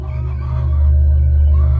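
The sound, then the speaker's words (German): A rooster crows among hens in a poultry yard as he gathers his flock toward the coop. One sustained crow sits over a steady, loud low rumble. “war der König des Hühnerhofs gerade damit beschäftigt, seine Hühnerschar um sich zu sammeln, um sie Richtung Stall zu führen.”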